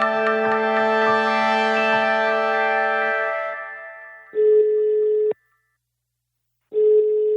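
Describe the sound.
Telephone dialing and ringing tones: a sustained, rich ringing tone fades over about four seconds, then a steady mid-pitched ring tone sounds for about a second and repeats after a silent pause.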